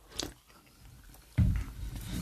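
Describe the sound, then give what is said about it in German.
A short sip of beer from an opened drink can: faint, soft mouth sounds, then a fuller sipping and swallowing sound partway through, quiet and brief. “kurzer Schluck, die Dose ist offen, let's go.”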